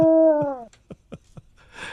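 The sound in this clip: A dog howls during road-trip singing: one wavering, tonal howl that slides slightly downward, followed by a few faint, short blips.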